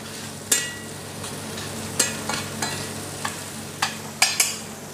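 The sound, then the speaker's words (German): Egg and chives fry briefly in a pan with a steady sizzle. Several sharp scrapes and clicks of stirring break through at irregular intervals, and no one speaks. “Dann ein Ei. Und einmal rösten wir es noch einmal ganz kurz mit.”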